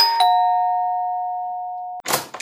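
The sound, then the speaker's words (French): A doorbell rings at a couple's home, pressed by an electricity company inspector: a two-note chime whose second, clear tone rings out and slowly decays for nearly two seconds, followed by a short burst of noise. “Le jour suivant, un contrôleur EDF sonne chez le couple, car ils n'ont pas payé leur facture d'électricité.”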